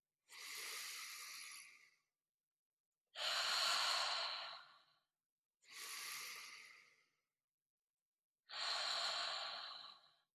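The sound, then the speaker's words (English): Deep, slow breathing during a yoga stretch: four long, breathy, hissing breaths, each lasting about a second and a half to two seconds, separated by short silences and heard alone without talk. “Let's take two breaths here.”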